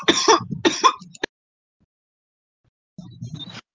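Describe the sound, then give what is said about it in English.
Coughing during a tabletop role-playing game session: two rough, harsh bursts in quick succession and a short click, then silence, then one more softer, throaty burst. “Would you tell your wife to roll a 20 on the coughing?”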